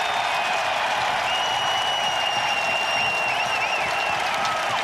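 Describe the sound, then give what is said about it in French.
Standing ovation from a hockey arena crowd in Chicago, loud sustained applause with cheering and whistles that stays at an even, dense level from start to finish. “pour te faire écouter quelque chose de bien plus beau. C'est une ovation.”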